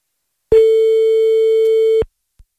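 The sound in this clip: A telephone line tone heard while calling someone back: one loud, steady, mid-pitched beep lasting about a second and a half, alone, followed by a tiny faint click.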